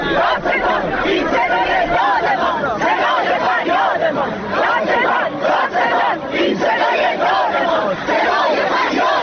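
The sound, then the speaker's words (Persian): Protest crowd in Isfahan chanting slogans about an acid attack case. Many voices shout in unison, loud and dense, a continuous roar of rhythmic chanting with no pauses. “صدای شعار مردم اصفهان رو شنیدید در مورد پرونده اسید پاشی”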